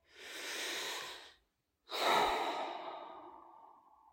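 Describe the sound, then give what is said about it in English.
One long, deep breath: a soft, drawn-out inhale, a brief silent pause, then a longer sighing exhale that slowly fades, quiet and alone. “Take another long, deep breath.”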